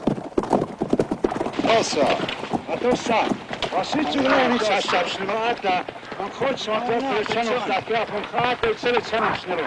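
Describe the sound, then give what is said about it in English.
Hooves of a large group of horses galloping on horseback, approaching: a dense, continuous clatter of many rapid hoofbeats, loud throughout, with voices calling over the stampede. “As the rest run away, kicking up a storm of dust, a large group of Indians on horseback approaches Jethro.”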